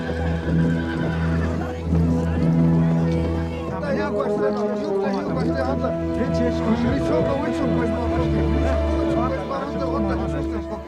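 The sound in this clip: Horses neigh and whinny as a large group of riders, Cheyenne hunters, approaches a village; several loud whinnies rise over a dense, steady layer of sound.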